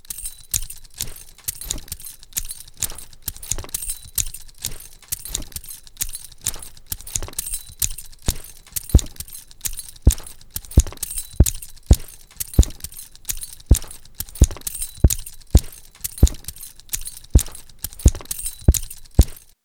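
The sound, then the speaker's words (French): A looped rhythmic pattern made from a drawer being opened and closed and taps on the top of a microphone: many sharp clicks and knocks repeating at a steady pulse throughout. “Ensuite, je vais y ajouter un tiroir que je vais ouvrir et fermer alternativement, et enfin, pour soutenir le tout, je vais frapper sur le dessus du micro.”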